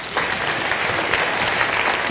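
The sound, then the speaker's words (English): Audience applause welcomes a speaker onto the stage at a talk, a dense, steady wash of many hands clapping that holds an even loudness throughout, with no voices rising above it. “So please give him a big round of welcome, David Parsons.”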